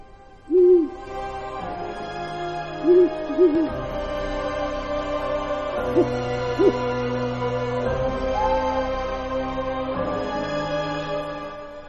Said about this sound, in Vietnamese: có cái con cú mèo ở đâu, nó bay đến, nó đậu ngay cánh cửa trong nhà, nó kêu thất thanh 7 tiếng.